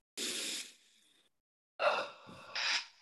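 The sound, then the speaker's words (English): A group takes a deep breath, heard as a few audible inhales and exhales with short, breathy gasps separated by silence. “Okay, would everybody take a deep breath?”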